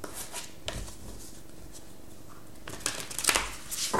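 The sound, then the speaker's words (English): Tarot cards shuffled by hand: a brief papery flutter early on, then a longer stretch of crisp riffling and rustling bursts that grows busier toward the end, with no talk. “Okay, let's get the tarot cards.”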